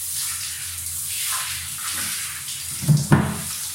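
Hot shower water runs onto skin coated with lotion, a faint, steady hiss. Two brief low thumps come near the end.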